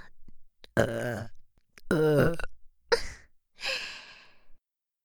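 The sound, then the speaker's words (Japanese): A few close, deliberate burps, some deep and voiced and others trailing off into breathy exhalations, separated by short silences and played alone. “それともゲップがエッチすぎて集中できませんか？”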